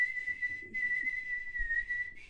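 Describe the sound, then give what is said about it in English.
A person whistles one sustained, fairly high note that holds an almost steady pitch, with a couple of tiny breaks, over about two seconds. “Yeah, well, that's before you started singing again, whistling.”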